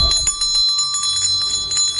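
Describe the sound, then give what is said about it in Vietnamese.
An old bell ringing violently in an inn, its loud, sustained metallic tones humming steadily throughout with no pause and no voices. “Chuông kinh hồn rung lên dữ dội, sắc vàng chế mắt phát ra theo những rung động kịch liệt của tiếng chuông cổ cũ kỹ.”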